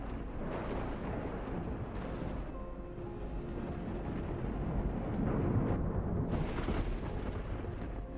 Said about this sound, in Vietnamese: Bất chợt có tiếng sấm rền vang như tiếng lòng của người con mất mẹ đau xót.